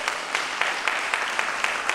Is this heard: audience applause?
yes